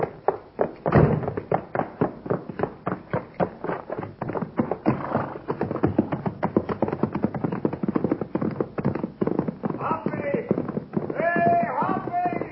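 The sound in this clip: Horses being ridden, among them one called Topper, beat out a steady, brisk clip-clop of many hoof strikes throughout, with a voice speaking over them near the end.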